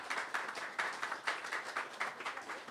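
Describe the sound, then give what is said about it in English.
Audience applause after a performer leaves the stage: many hands clapping steadily and fairly loudly, with a dense, continuous patter of claps. “Right, that was awesome. Another round of applause.”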